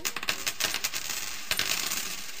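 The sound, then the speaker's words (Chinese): Coins dropping onto a floor: many bright metallic clinks and rattles in a quick, scattered series, with a fresh burst of jingling about halfway through as the coins bounce and settle, with no voices. “啱啱嗰啲系硬币跌落去地下嘅声音嚟噶”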